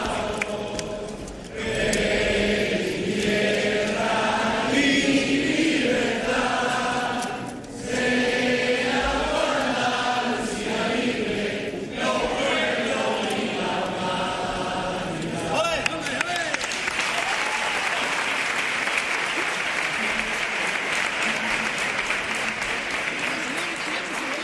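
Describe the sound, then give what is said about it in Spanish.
Theatre audience at Teatro Falla reacting to a carnival paso doble by spontaneously singing the Andalusian anthem, a loud massed choir of voices that gives way after about 16 seconds to dense, sustained applause. “La reacción del público a esta segunda letra de Paso Doble. Qué manera de hilar las frases, los versos. Y mira cómo reacciona el teatro, ¿eh? Con el himno de Andalucía, interpretando el himno de manera espontánea. Sonido de Teatro Falla.”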